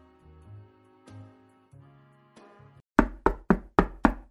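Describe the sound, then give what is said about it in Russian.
Knocking on a door: five sharp, loud raps in a quick, even rhythm. They follow a soft, slow musical phrase of sustained low notes. “Я кивнул и постучал в дверь.”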